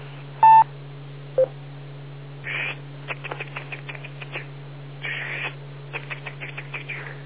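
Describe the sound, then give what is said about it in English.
Rotary telephone dial being turned: two brief tones open, then whirring sweeps of the dial, each followed by runs of quick ticking clicks, over a steady low hum with no talk. “My phone is antiquated. It still has a dial on it. Ah, the old rotary dial.”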